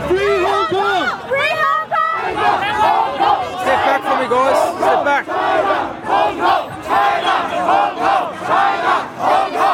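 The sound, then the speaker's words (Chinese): A crowd of Hong Kong protesters at an evening demonstration outside the State Library of Victoria, chanting and shouting loudly without a break, many voices rising and falling in a dense, continuous roar. “现在是晚上的8点11分，位于维多利亚州立图书馆门前的抗议活动仍然在继续”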